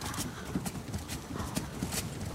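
Hooves of ponies ridden by small children during a roe deer hunt, clopping in a quick, uneven rhythm. Many hoofbeats sound over a noisy outdoor background.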